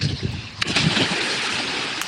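Water splashing as people bathe in a river, a continuous rushing wash of churned water with a few sharper splashes standing out briefly.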